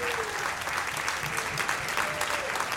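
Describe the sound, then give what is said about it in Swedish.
Audience applause welcoming a guest onto a live show: dense, steady clapping that holds at an even level for the whole stretch without a break. “Ge en varm applåd till Hampus Hedström!”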